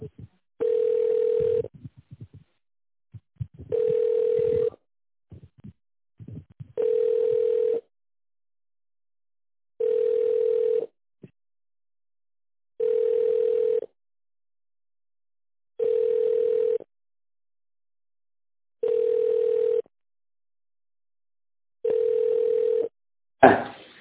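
A telephone ringback tone plays while a call is being transferred. It is a steady mid-pitched beep repeated eight times at even intervals of about three seconds, with silence between the tones, and it ends with a sharp click.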